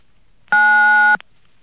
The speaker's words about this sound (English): To accept the call, please dial 9 now.